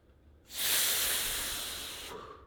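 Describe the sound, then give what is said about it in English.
One long, forceful exhale after a big inhale, blown out as a steady breathy hiss lasting under two seconds. It starts abruptly, fades slightly and stops sharply, fairly quiet overall. “And then I'll take the biggest inhale of my life and I'll blow like this.”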